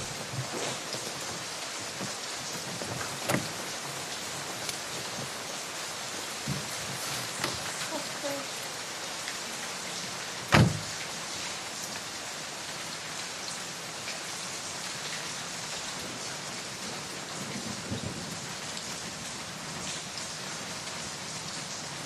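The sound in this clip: Rain falls in a steady, dense hiss throughout, with scattered louder drops and one sharp knock midway.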